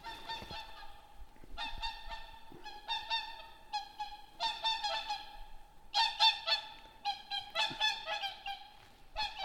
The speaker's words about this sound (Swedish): Ja, där har vi dem. Ett par sångsvanar.